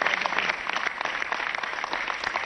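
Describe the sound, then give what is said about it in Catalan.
Crowd applause for the players' parents at a football club celebration, a thick wash of many hands clapping with individual claps popping out, holding a fairly constant level throughout. “Per tant, un aplaudiment per tots ells. Per tant, un aplauso para todos ellos.”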